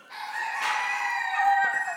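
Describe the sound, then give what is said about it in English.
A rooster in a backyard flock of silkies, bantams and a turkey crows once, a long, loud, harmonic call lasting about two seconds. “Billy's our rooster, and yeah, he's always wary of going by me”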